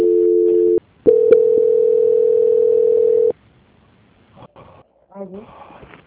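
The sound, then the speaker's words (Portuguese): A steady telephone line tone plays while a bank call is being transferred. A short mid-pitched tone is followed by a brief gap and then a longer sustained tone of about two seconds, after which only faint scattered sounds remain. “Por favor, permaneça em linha. Para vocês também. Transferência.”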